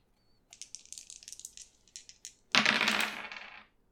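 Two six-sided dice are rolled on a table. A run of small, light, hard clicks rattles for a couple of seconds, then ends in one louder, dense clatter before going quiet, with no voices.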